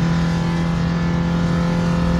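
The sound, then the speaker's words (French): Loud, steady engine drone of a Renault R5 car accelerating hard in third gear at high revs, at about 140 km/h, a continuous buzzing harmonic roar that holds without a break from start to finish. “La troisième est beaucoup plus longue à monter. C'est normal. On est déjà à 140. Pour une R5, c'est pas mal.”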